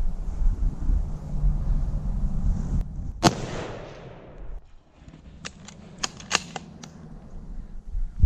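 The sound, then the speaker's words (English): A hunting rifle fired at a deer: one loud, sharp crack whose rumbling tail fades over about a second, followed a little later by several quick, sharp clicks. “Okay, if you feel confident, squeeze off a shot.”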